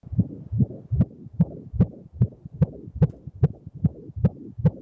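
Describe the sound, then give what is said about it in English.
An unborn baby's heartbeat on an ultrasound monitor, heard as quick, regular, whooshing thumps in paired pulses. The muffled, throbbing beats repeat many times at a steady pace and stand alone with no talk. “That's what a beating heart sounds like. That is what the baby's heart sounds like when they're doing the ultrasound and they have the monitor up and you can hear that.”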